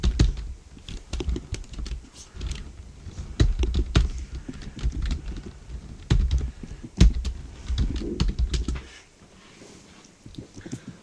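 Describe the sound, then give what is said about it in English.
Typing on a computer keyboard makes rapid, irregular clattering keystrokes at a fairly quiet level, with occasional louder taps and a brief pause near the end. “Go to googlefun.info. I'll type it.”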